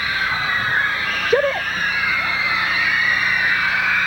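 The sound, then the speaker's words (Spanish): An audience of girls screaming at a singer's appearance, a dense, sustained high-pitched roar that holds steady throughout, with a brief lower vocal cry near the middle. “El canto, ustedes se van roncas a la casa, chicas, como gritaron.”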